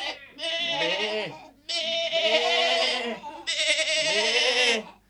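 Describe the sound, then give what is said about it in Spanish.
Goats grazing in a meadow bleat loudly, giving three long, wavering bleats separated by short pauses. “No mucho más lejos vio a unas cabras paciendo en un prado”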